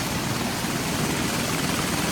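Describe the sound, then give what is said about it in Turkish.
A helicopter's steady, loud roar of rotor and engine noise during a raid by US troops on a seized oil tanker. The dense, even noise continues unbroken throughout. “Paylaşılan görüntülerde de ABD askerlerinin el konulan petrol tankerine helikopterle düzenlediği baskın anlarına yer verildi.”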